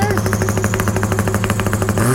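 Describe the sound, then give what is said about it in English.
A four-cylinder engine hammers against its rev limiter, making a loud, rapid, steady stutter of popping pulses over a buzzing engine tone. No one speaks. “But that's a rev limiter. He's hitting the rev limiter.”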